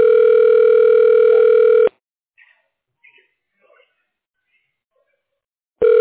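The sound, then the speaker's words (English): Telephone ringing tone while a call is forwarded: a loud, steady electronic tone sounds for about two seconds, stops for a near-silent gap, then starts again at the end. “Your call is now being forwarded. Please hold.”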